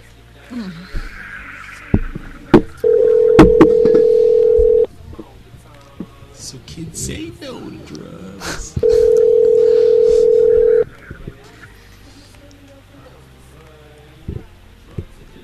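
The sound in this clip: Telephone ringback tone during an outgoing call: two long, steady, loud buzzing rings, each about two seconds, separated by a pause filled with people talking and laughing.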